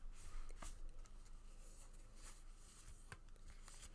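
Large cards being shuffled, giving soft papery rustling and riffling with a few sharper snaps, steady and fairly faint throughout.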